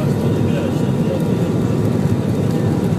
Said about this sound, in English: listen to that great sound. Rolling down the runway. Gathering speed.